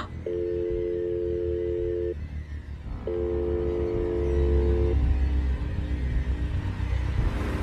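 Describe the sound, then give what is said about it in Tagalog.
A phone call rings unanswered: a ringback tone sounds as two long, even buzzing rings of about two seconds each, separated by a short gap, over a steady low rumble. “Hindi ako tumigil sa pagtatangkang tawagan si Brian para sabihing mag-ingat siya kay Mike, Sir Jupiter. Pero nahuli na ako. Sa saglit na pagtigil ko sa pag-dial,”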